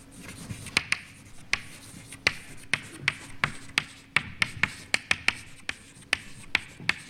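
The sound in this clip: Writing a name on a board during a physics lecture, with many sharp taps and short scratchy strokes in an irregular rhythm, fairly crisp against a quiet background with no talk.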